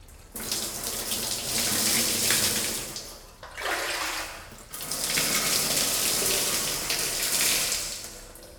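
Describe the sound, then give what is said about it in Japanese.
Warm running water rinsing hair: a loud, steady rushing hiss of flowing water that briefly cuts off partway through, then resumes and runs to the end. “一旦お湯で流しますね。”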